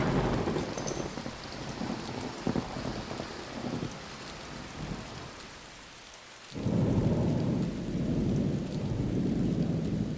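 Heavy rain pours in a thunderstorm, a dense steady hiss under low rumbles of thunder. It eases briefly, then surges back louder.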